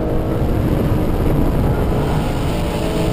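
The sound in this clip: Loud, steady engine roar and rushing noise inside a racing car driven by Gary Paffett as it slides in fourth gear through the fastest corner of a track, continuous with no voices.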